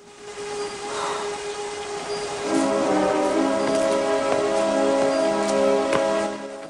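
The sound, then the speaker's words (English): Torrential rain pours in a dense, continuous hiss that grows louder after the first couple of seconds, with a steady tonal drone running underneath. “staggers over to the doorway and hobbles out into the torrential rain.”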